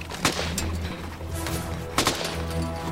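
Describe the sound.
Gunshots fired at a creature: a few sharp, cracking bursts cut through a constant low droning background.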